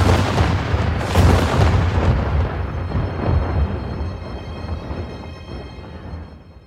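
Heavy cannon fire in a battle, with several booming blasts carrying a deep rumbling low end, loudest early on and fading away toward the end.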